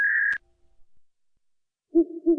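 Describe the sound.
An owl hooting: a short, higher note, then a pause of silence, then two low, hollow hoots in quick succession, clear and alone.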